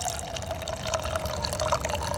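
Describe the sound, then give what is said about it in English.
Coffee is poured in a steady, unbroken trickle of liquid, a soft continuous splashing that stays even in level, with no talking. “Oh, yeah, pour some coffee.”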